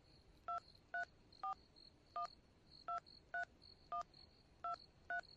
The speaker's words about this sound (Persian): خب باش که من با مشاور به تماس شوم که چی میگه.